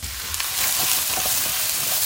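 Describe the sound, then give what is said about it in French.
Halved and quartered mushrooms brown quickly in a little butter in a frying pan, giving a steady, loud sizzling hiss with fine crackles throughout. “Et puis là, on va les faire juste dorer à la poêle avec un petit peu de beurre rapidement.”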